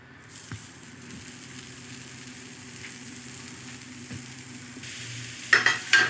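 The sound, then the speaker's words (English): Spätzle sizzle steadily on a grill, a continuous soft frying hiss that grows a little louder toward the end, where a few brief clattering sounds break in. “Got some bacon cooked off. So we'll take our spätzle here and get them on the grill.”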